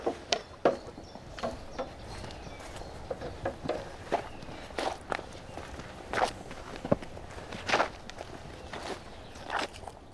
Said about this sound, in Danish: Men lad os prøve at gå lige herover.